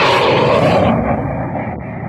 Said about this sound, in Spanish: Los veloces aviones siguen llegando.